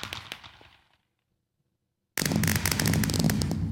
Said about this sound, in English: So I really think I love the sound effects. I love the look. I just think the fireworks in Minecraft are amazing.